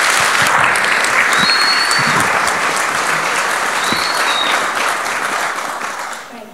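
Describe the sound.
Audience applause welcoming a speaker at a community talk, a loud, dense, sustained clapping that holds steady and then tapers off at the end.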